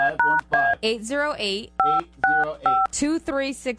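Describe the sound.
Touch-tone keypad beeps as a phone number is dialed: several short two-note tones in an uneven rhythm, interleaved with people talking.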